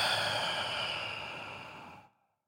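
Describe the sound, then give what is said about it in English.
One long, deep breath out, a steady breathy rush that holds for about two seconds and then fades away into silence, with no talking. “So breathe in. Breathe out.”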